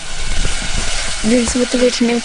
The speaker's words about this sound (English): Sarita lights up the gas stove, puts on a saucepan, and starts to make chai with crushed ginger, cardamom, and fresh buffalo milk.